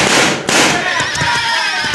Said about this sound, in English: Watch me make a spin from the bullets of this six gun.